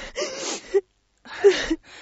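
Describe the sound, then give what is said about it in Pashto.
A grieving woman cries with breathy, gasping sobs and whimpers, in two strained bursts broken by a short silence. “بس دی نور، بس دی نوره، مه ژاړه”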